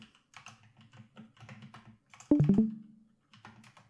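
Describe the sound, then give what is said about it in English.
Computer keyboard typing as someone enters a search query: a quick run of soft, light key clicks, then a brief louder cluster of keystrokes midway before the faint tapping resumes. “Type it in right now. Go to Google and type in Uncut Gems meme.”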